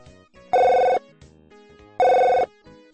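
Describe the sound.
A telephone rings as a wife calls her husband: two loud, bright electronic ring bursts of about half a second each, evenly spaced, with fainter tones between them.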